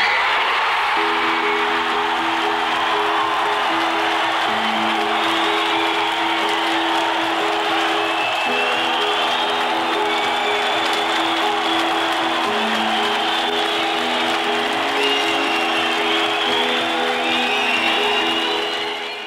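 A crowd of six to seven thousand people roaring with emotion, crying and cheering, forms a dense, sustained wall of shouting and applause. Steady pitched horn-like tones sound beneath the uproar, which holds loud and unbroken throughout.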